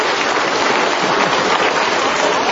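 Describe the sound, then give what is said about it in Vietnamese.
Applause from an audience at a church sermon: dense, steady clapping from many hands, sustained at an even loudness throughout. “Một tràng pháo tay thưa anh chị em.”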